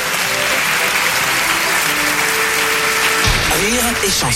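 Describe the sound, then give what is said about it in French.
Dense, steady applause runs through the whole clip at a loud, even level, with a few faint tonal sounds riding over the clapping. “Des applaudissements, moi je m'entends dedans, vas-y, des applaudissements”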